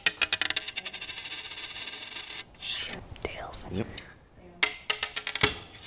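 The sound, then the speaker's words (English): A flipped coin rings and rattles through many quick metallic bounces, then quiet voices talk before a few more bright clinks arrive near the end. “Roll the tape back to a moment right at the beginning of our coin flip.”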